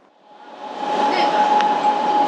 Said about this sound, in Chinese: 稻田站到了。 We are arriving at.稻田 station.